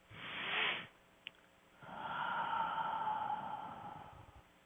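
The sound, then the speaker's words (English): A deep breath taken to relax during a guided relaxation session: a short, breathy inhale, a pause broken by a faint click, then a longer, steady, airy exhale that slowly trails off. The whole sound is quiet, with no talk. “So if you're ready, let's take a deep breath together and relax.”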